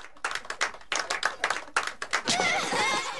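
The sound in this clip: Applause from a whole gathering, a run of quick, uneven hand claps in loud bursts that soon merge into a denser wash of clapping.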